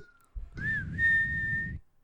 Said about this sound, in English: we get the sound effect again. Oh, the call, the whistle, the Native American whistle.